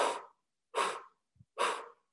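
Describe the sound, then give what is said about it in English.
Breath of fire, the rapid yogic breathing through the nose with pumps from the navel, comes as three sharp, forceful exhalations at an even rhythm, with a faint short sound between the second and third. “the breath that we're doing is breath of fire, which is a rapid breath through the nose where you pump your navel points.”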